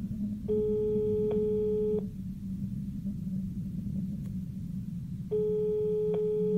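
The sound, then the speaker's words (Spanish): Telephone ringback tone after dialing a number: two steady buzzing tone bursts, each about one and a half seconds long, separated by a long pause over a constant low rumble. “Marqué a su número y pronto escuché el tono demarcado.”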